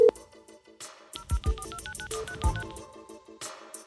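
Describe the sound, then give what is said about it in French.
Touch-tone telephone dialing as a number is called: a quick run of many short electronic beeps in an uneven rhythm, with no talking. “On compose le numéro et ça sonne.”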